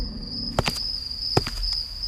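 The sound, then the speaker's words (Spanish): Footsteps at night in a poorly lit area beside a building: a few soft, scuffing steps in two brief pairs over a steady, high chirring of crickets. “Se escuchan unos pasos en la noche.”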